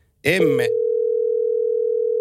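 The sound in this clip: A steady telephone dial tone sounds after a phone line drops mid-call. A brief voice comes first, then an unbroken, mid-pitched tone holds evenly for about two seconds.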